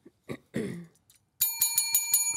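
A game buzzer bell is pressed and rings in quick succession: several bright metallic dings follow one another rapidly and clearly.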